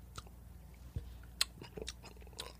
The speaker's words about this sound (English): I'm chewing into the mic. It's fucking so gross. What? What? It's just the candy corn into the mic.